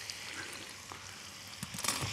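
Pasta being added to a frying pan with bacon and its rendered fat gives a soft, steady sizzle and crackle, with a few louder stirring scrapes near the end.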